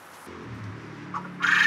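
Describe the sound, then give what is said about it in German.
A quail gives faint, soft clucks as it is set free, ending in a brief, louder rustling burst. “Und? Hast wieder deine Freiheit. Wachteln finde ich super interessant, auch die Eier, also ganz klasse, total niedlich und finde ich sehr gut.”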